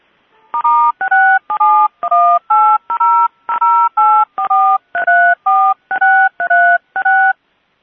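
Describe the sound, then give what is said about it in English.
Touch-tone keypad dialing a toll-free information line: a loud, steady run of many short two-tone beeps, evenly spaced in a quick rhythm, with no talk. “So I'm going to call it one quick time real quick so you guys can actually hear it, because you don't get a live op.”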